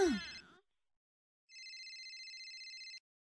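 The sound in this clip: A phone rings with an incoming call: one burst of bright, rapidly pulsing electronic trill, steady and high. It follows a short moment of voice, then stops abruptly.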